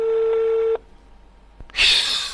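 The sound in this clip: A telephone tone on a call placed to a police headquarters: one steady electronic tone lasting under a second, then near-silence, a sharp click and a loud burst of bright hiss.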